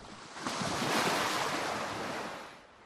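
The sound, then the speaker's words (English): Clear water rolls onto a sunny shoreline in the wind, a broad, steady wash of surf that swells to a peak and then slowly fades. “the green fronds of a palm leaf gently waving in the wind, and clear waters rolling onto a sunny shoreline.”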